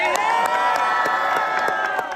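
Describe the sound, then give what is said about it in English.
Crowd of demonstrators, Irish nationalists opposing a unionist parade, cheering at midnight; a loud, sustained roar of many shouting and whooping voices that stays at an even level from start to finish. “Last night, demonstrators cheered as the clock struck midnight.”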